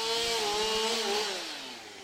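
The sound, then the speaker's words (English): Chainsaws clear fallen trees from blocked public footpaths in Sidwood Forest, Northumberland, with a loud, continuous buzzing whine that drops in pitch and eases off near the end, with no talk. “BBC Newcastle's Joe Lonsdale has been to Sidwood Forest, where teams of chainsaw operators continue the mammoth task of clearing miles of blocked public footpaths.”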